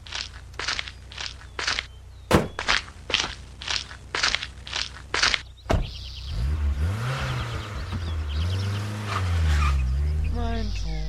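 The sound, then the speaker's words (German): A car's engine revs and pulls away after a run of footsteps and one sharp knock, its low hum wavering up and down in pitch as it grows louder toward the end. “Oh, da fährt er hin.”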